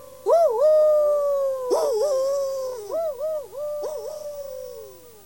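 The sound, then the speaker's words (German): A person imitating a wolf howl with the voice: loud, sustained howling tones in a few phrases, the pitch wavering, dipping and sliding between long held notes. “Das ist kein Kojotengeheul. Das ist Wolfsgeheul.”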